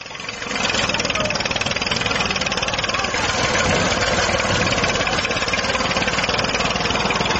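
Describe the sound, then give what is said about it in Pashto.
A tractor and Ranger vehicles destroy a poppy field in Gereshk district, Helmand, heard as a loud, steady mid-pitched engine rumble that swells within the first second and then holds evenly throughout. “د هلمند ولایت ګرشک ولسوالۍ په یوه ویډیوي کلیپ کې لیدل کېږي چې طالبان د ټراکټر او رینجر موټرونو په وسیله د کوکنارو یوه کرونده ویجاړوي.”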